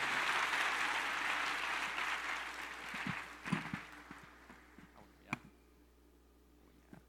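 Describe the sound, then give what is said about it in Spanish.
Congregational applause at a church service, a broad wash of clapping that is loudest at the start and gradually fades, leaving a few scattered soft knocks and taps toward the end. “Un aplauso para nuestro Señor.”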